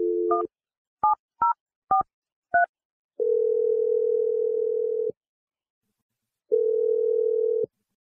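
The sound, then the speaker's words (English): A telephone dial tone sounds briefly, followed by a few quick keypad beeps as a number is dialed, then two long, steady ringing tones separated by a pause. No voices are heard. “All right, so I'm going to dial Marie's number.”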